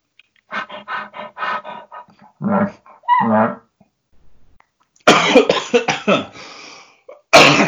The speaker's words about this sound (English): sorry about that. Are the coughs included? yeah, the coughs are included.